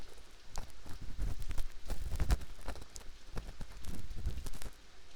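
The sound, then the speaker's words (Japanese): Ear pick cleaning inside the ear with a stick-style ear pick, close crackly scraping and rubbing that runs continuously, with rough low thuds mixed into the strokes. “しながらお掃除するね。こうして耳かき棒で。”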